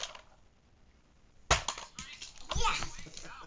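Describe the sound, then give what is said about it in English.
A toy launcher's projectile strikes a child's belly with a sudden sharp thump, followed by another knock a second later amid children's voices. “It went right into you, buddy. You can't launch something if you're standing in front of the launcher. It's just going to hit your belly.”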